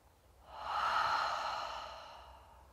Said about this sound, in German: Dann nimm 3 ganz tiefe, bewusste Atemzüge.